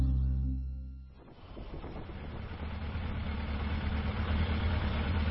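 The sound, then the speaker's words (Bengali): A stopped motorbike's engine idles as a steady, fairly quiet low rumble that settles in after a softer hum at the start, with no talk over it. “কি রে দাদা, তুই bike থামালি যে?”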